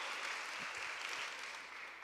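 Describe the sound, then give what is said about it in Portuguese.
Congregation applause during a church service, a faint, even hiss of many hands clapping that holds steady for about two seconds, with no distinct individual claps. “Vamos aplaudi-lo, vamos exaltá-lo.”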